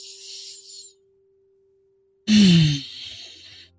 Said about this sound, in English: Take a deep breath here.